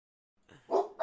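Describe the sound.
Dogs barking in the background: a few short, faint yapping barks in quick succession, with no talk over them.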